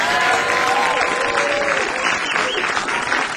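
Audience applause welcomes guitarist Warren Haynes at a live lunch performance, with dense, steady clapping that stays loud throughout.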